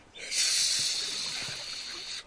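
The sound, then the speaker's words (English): A man imitates a swan's hiss, one sustained breathy hiss lasting about two seconds, fairly faint and heard alone. “I speak their lingo, the thing to do is hiss. Now, watch, I'll do it.”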